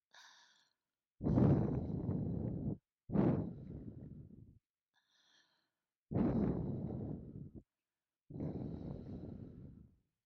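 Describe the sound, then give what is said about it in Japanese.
Slow, heavy breathing from a person: four loud, drawn-out breaths separated by short pauses, with fainter breaths at the start and in the middle, and no talking. “どうです？私の呼吸は。”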